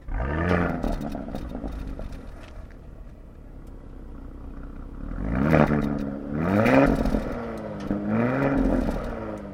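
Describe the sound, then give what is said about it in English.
Engine roar from a Porsche Cayenne S Coupé, a 2,000 kg SUV fitted with a sports exhaust. A steady rumble gives way to a run of loud revving surges, each climbing in pitch before easing off. “One of the things that this car has got is the sports exhaust, which is, I think, absolutely worth it.”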